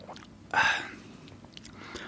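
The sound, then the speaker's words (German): One quick slurping sip of an after-work beer, a red-blonde brew at 4.9 percent, makes a short wet burst that fades quickly, followed by a few faint soft clicks. “Ich nehme jetzt aber kurz einen, einen Schluck aus dem Feierabendbier.”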